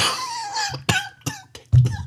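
A person coughs a few sharp, harsh times in quick succession after a rough, voiced throat sound, with no talk.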